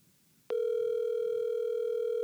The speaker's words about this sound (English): She doesn't pick up. I'm going to call it one more time.